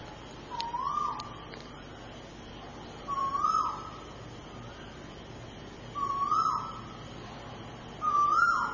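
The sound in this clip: Bird calls at a Buddhist temple: four short whistled, hooting notes, evenly spaced a few seconds apart, moderately loud over a steady faint background hiss.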